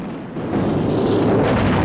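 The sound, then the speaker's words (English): Artillery guns on a riverbank open fire on the ship Amethyst, a loud, deep blast that swells into a continuous rumbling roar with no pause. “Artillery guns on the bank open fire.”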